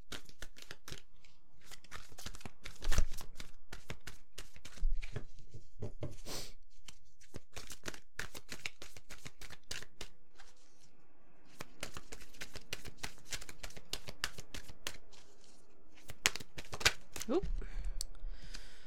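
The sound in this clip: Tarot deck being shuffled: many rapid papery riffles, flicks and clicks in repeated bursts, fairly faint.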